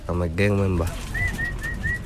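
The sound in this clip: Pigeons kept behind a house: a voice is heard briefly first, then four short, evenly spaced calls repeat in a steady rhythm.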